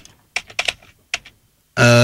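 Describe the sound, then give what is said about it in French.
Computer mouse clicks come in a few short clusters of sharp taps, separated by silence, before a loud sustained harmonic electronic tone suddenly starts near the end. “Pour l'instant, alors attends, bouge pas, je clique.”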